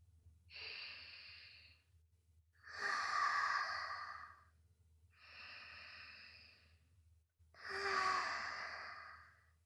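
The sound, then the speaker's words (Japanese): Deep breathing in through the nose and out, four long breath sounds forming two full in-and-out cycles, the second and fourth louder and rougher, with no talk. “深呼吸してみよっか。鼻で息を吸って、吐いて。”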